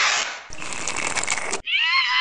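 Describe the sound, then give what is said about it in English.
A shrill, whinny-like scream stands for milk being sopped up by a paper towel in a comedic ad. It comes after a short hiss and a rough, crackling burst of noise, then rings out briefly and cuts off. “What was that scream? That was the milk, begging for mercy.”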